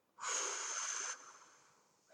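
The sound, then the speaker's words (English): A deep breath taken during a guided breathing exercise with hands over the heart: one loud, airy rush of breath lasting about a second, then a much softer, fading breath trailing after it, alone without talk. “We are going to take that deep breath in. We're going to hold and we're going to exhale that breath out.”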